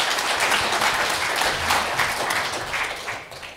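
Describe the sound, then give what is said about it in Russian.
Audience applause at the opening of the Livadia forum in Minsk: dense, steady clapping from many hands that continues throughout and thins slightly at the end. “Пожалуйста, давайте поаплодируем.”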